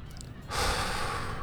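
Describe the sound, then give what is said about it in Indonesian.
A deep breath drawn in during a guided breathing exercise: a soft, steady breathy hiss that begins abruptly about a third of the way in and holds evenly to the end, with no talking. “Tarik nafas.”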